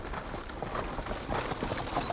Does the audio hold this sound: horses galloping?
yes